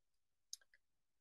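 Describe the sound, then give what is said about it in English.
Faint typing on a keyboard: a quick burst of three light, sharp clicks in close succession, surrounded by near silence. “I can finally type in discussions. It feels great to type into discussion.”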